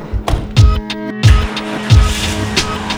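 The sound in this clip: A car driving off, its engine surging in three loud revving bursts with some tire noise, over a steady tonal background.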